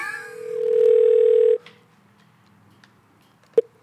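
A telephone being dialed: a steady dial tone holds for about a second and a half, then cuts off. Faint clicks and one short, sharp beep follow.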